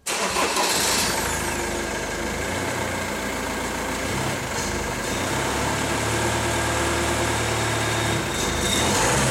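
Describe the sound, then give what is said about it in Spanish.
The engine of a red Volkswagen van turns over and catches, then settles into a loud, steady running rumble that carries on to the end. “Bueno, bueno, Irati, por si acaso ya nos hemos puesto en marcha en Fafner, nuestra Volkswagen roja, ¿verdad?, con nombre de dragón.”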